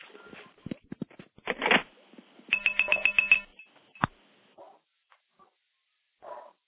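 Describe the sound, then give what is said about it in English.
Short chirping electronic cheeps sound on a telephone line just after hanging up as the call tears down. Scattered clicks lead into a quick burst of rapid high tones mid-clip, followed by a sharp click and a few faint blips. “what I'm going to do is hang up, listen for the cheeps, and that'll be the stack tearing down.”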